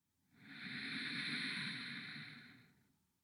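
Slow inhalation during a guided meditation exercise: a breathy hiss swells over about half a second, holds steady for roughly two seconds, then fades away, with no talk.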